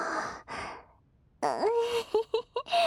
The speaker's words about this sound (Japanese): めっちゃ必死に嗅いでる。おじさんの鼻息が当たって、脇の下めっちゃくすぐったい。